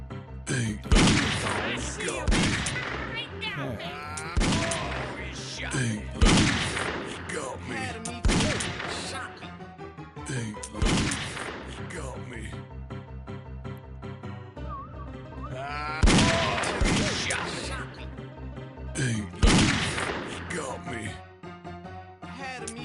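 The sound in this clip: Video game gunfire rings out in repeated loud bursts of shots across a firefight, with dense, sharp volleys recurring over steady game noise and voices talking throughout.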